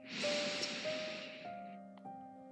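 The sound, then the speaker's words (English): A slow, deep breath is drawn in through the nose as a soft, airy rush that swells and then fades. Quiet sustained musical tones play underneath. “let's take three deep letting go breaths right here, together, arriving fully in this moment. Inhale through your nose.”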